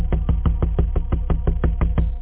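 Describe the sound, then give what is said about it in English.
Knocking on an apartment door with a peephole late at night, many rapid, evenly spaced knocks with dull, hollow thuds, steady and moderately loud, with no voices. “there was another knock at the door.”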